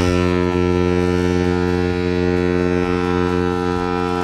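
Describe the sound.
A deep, loud saxophone blast at a concert: one steady, droning low tone with rich overtones, held without a break for about four seconds.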